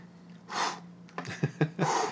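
Deep cleansing breaths: two long, airy, fairly loud breaths, one near the start and one at the end, with a few short voiced sounds between them.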